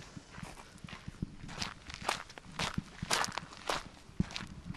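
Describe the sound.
Footsteps walk around the back of a drying shed, a faint, steady series of many soft, crunchy steps at an even walking pace.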